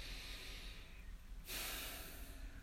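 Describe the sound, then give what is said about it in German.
A person breathes in and out slowly and deliberately through the nose. The airy hiss is soft and steady, with no talk. “Dann gehen wir mit der Aufmerksamkeit zur Nase, das heißt zum Atem, und wir beginnen mit einem bewussten Ein- und Ausatmen.”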